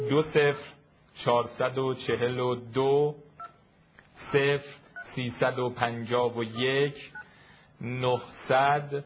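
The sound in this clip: Telephone keypad tones as a home phone number is dialed, short electronic beeps mixed in with a voice talking across most of the stretch.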